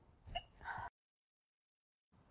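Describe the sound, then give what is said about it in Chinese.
A single short hiccup, a brief throaty catch heard on its own and followed by silence. “我在打嗝，你能不能给我一杯水？”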